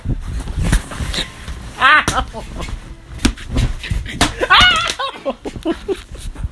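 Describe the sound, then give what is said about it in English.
Punches landing on a person, heard as several sharp smacking impacts among loud shouting voices and bursts of laughter. “Bitch, don't punch me! Ow!”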